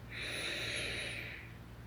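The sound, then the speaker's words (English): A single long, deep inhalation during a guided breathing exercise, a soft airy hiss that swells and then fades over about a second and a half, quiet and heard alone. “Once more, take a deep breath in,”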